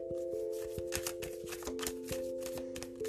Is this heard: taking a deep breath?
no

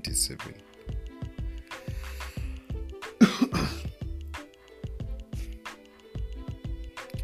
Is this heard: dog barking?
no

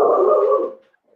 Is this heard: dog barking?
yes

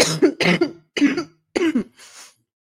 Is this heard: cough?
yes

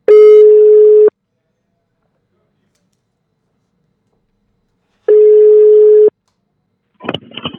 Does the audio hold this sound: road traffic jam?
no

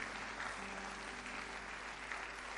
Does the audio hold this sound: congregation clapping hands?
yes

